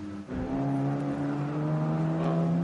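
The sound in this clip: Course vehicles drive along a race course near an access road. Their engines make a steady, low, droning hum that stays level and loud after a brief dip at the start, with no voices.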